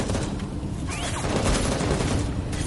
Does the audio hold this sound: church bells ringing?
no